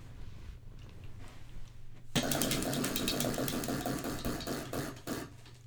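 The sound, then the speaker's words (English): A prize wheel spun to pick a question: after a low background hum, rapid ratcheting clicks start abruptly and continue in a fast, steady ticking for several seconds, easing slightly near the end. “All right, let's spin for our next question.”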